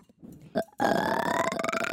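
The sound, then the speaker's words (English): A long, loud burp, preceded by a couple of brief faint sounds, comes out as a sustained croaky tone with rich overtones, holding a fairly steady pitch for over a second. “What does that burp sound like? Yours sounded like a normal burp.”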